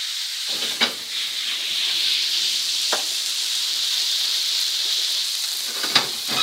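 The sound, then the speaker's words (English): Steady sizzling of Havana rum flambéed in a hot pan on a stove burner, a continuous hiss broken by a few brief crackles and spits. “I'll turn the burner back on here, give myself a little room. And we're going to flambé this. So I'm going to give this a shot of rum.”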